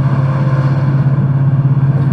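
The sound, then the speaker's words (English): A car engine drones with a steady, loud, low hum as the vehicle pulls over to pick up a hitchhiker. The tone holds constant throughout. “Pull over, pull over. Even if he ain't got weed, we'll fucking smoke his backpack or some shit. Hey, man. Hey, hi. Get in.”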